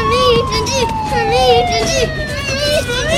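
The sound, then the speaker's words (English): A police car siren wails with a long, slowly falling tone, overlapped by warbling, wavering tones and a raised voice. “Tell him to turn that off. Turn the siren off!”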